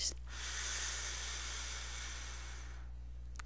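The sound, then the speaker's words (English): A single long, deep breath drawn in: a steady, airy hiss lasting nearly three seconds, heard alone over a faint low hum. “So I want everybody to just take a couple of deep breaths in.”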